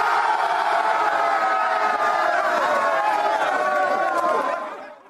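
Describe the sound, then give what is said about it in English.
New England Patriots players cheer over an extra day off after a win over Minnesota, a room full of men whooping and laughing together loudly before the noise fades out at the end. “That's the sound of 53 dudes who probably haven't had a day off in 53 months. Listen to the unbridled elation.”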